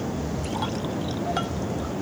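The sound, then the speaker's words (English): Cloudy, slightly effervescent pineapple apple cider is poured into a glass, making a soft, steady trickle and splash over a hissy background with no talk. “Little bit of effervescence there. I'm going to pour a little bit.”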